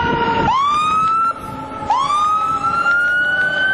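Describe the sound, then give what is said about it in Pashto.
An ambulance siren from an emergency hospital wails in the middle of a town bazaar in Gereshk. It is loud and steady, and its tone sweeps sharply upward twice in rising glides over a constant background rumble. “د ګرشک د بازار په منځ کې د ایمرجنسي روغتون ټونس ډول امبولانس درې ټپیان راولي”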